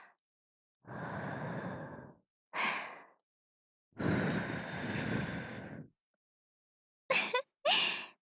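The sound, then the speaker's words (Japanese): Soft breathy blowing into an ear after ear cleaning comes as five quiet puffs, two long and three short, separated by silence with no talking. “耳かきの最後はふうふう、これがうちの会社の耳かき手順なんですよ。”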